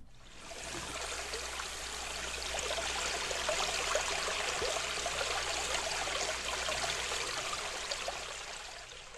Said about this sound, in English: For example, here is the sound of a brook.